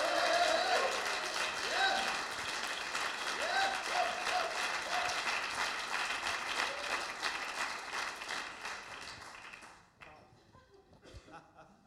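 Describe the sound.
Applause fills a church gathering as an audience welcomes visiting speakers, a dense, steady patter of clapping with some voices mixed in that thins out and fades near the end.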